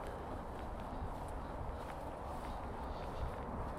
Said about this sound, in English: So the noise you can hear in the background is the M5.